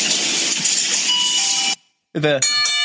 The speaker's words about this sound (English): the ding dong. Yeah, that's so amazing. That's the sound of someone either coming into the store or leaving the store.